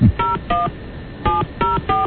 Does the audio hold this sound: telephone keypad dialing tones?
yes

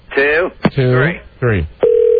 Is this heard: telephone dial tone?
yes

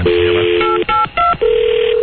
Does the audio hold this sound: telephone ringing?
yes

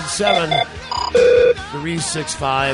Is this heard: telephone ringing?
yes

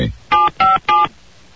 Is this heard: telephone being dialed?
yes

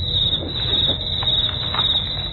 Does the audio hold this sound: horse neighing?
no

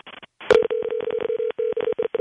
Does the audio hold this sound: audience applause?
no

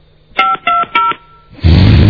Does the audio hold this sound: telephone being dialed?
yes

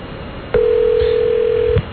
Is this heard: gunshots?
no

